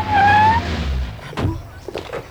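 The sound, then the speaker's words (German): Car approaching and stopping in front of a cave entrance: a loud engine rumble with a brief tire squeal in the first half second, easing off, then a short thud and quieter mechanical noises. “Als ein Auto nahte und vor dem Höhleneingang hielt.”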